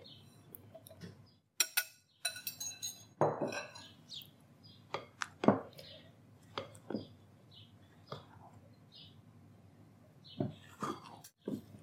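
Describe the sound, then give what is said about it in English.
Gluten-free brownie batter stirred by hand as the dry ingredients go in: quiet, irregular scrapes and clinks of a utensil against the bowl, spread unevenly across the stretch with brief pauses. “I'm gonna scrape the pan and finish beating here. I'm gonna do that off camera. And we're gonna stir in the dry by hand.”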